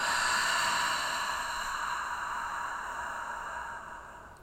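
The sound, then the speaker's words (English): A long, deep exhale after a nasal inhale in a guided breathing exercise, a broad airy rush of breath that starts strong and slowly tapers off over about four seconds, heard alone. “Deep breath in through the nose. Exhale it out.”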